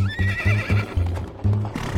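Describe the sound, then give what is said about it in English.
A horse pulling a horse-drawn hansom cab on a city street gives a long, wavering whinny over a steady clip-clop of hooves, and the hoofbeats keep going after the neigh fades. “to flag down a horse-drawn hansom cab”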